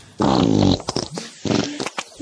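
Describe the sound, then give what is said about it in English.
A long, drawn-out fart: a loud, buzzy, sustained blast that breaks into a run of shorter sputtering bursts. “Today I've got one of them drawn out farts, I think. This might liven up the silent tape a little bit.”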